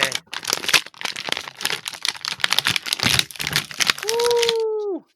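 An action figure being torn out of its plastic blister card packaging, with many sharp crackles and crinkles, followed by a sustained voiced call.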